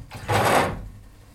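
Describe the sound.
A photographic print drops into a darkroom developer tray with one soft, splashy liquid swish. A brief hissing burst fades quickly into quiet.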